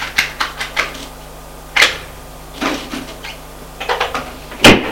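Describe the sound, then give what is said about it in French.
A wooden secretary desk is closed after a tube of pills is taken from it: many short, sharp clicks and knocks in an uneven rhythm, ending with a louder knock. “Ferme le secrétaire. Et retourne vers lui.”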